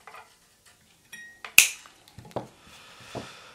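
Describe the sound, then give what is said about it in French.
A guitar string is cut during restringing, giving one sharp, bright snap, surrounded by a few faint clicks and taps. “Je compte deux mécaniques, une, deux, plus loin. Je coupe déjà ma corde.”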